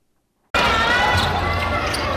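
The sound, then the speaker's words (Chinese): Basketball dribbling on a court during a youth tournament, with the bounces blended into loud, continuous crowd noise and voices that start abruptly after a short silence. “篮球场上传来运球声与喝彩声”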